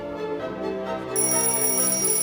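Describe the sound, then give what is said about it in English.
A square-faced alarm clock rings, its steady bright tones cutting in partway through over a sustained lower hum and holding evenly loud to the end. “reaches out to turn off her square-faced alarm clock, which reads 4:30”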